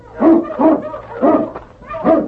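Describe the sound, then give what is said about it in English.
A large dog barking and whimpering in a radio drama set in snow country: four short, mid-pitched whining woofs, evenly spaced and fairly loud. “But as they neared the rocks, the great dog King sensed death in the air. What is it, King, huh?”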